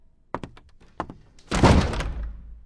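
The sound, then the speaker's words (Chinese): A door slammed shut as a figure with a small parasol storms out: a few light knocks come first, then a heavy slam with a loud, rumbling tail that fades slowly. “狼外婆撑着小阳伞摔门而去”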